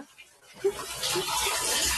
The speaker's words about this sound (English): Why'd you turn on the water? I'm gonna take a shower. Turn it off.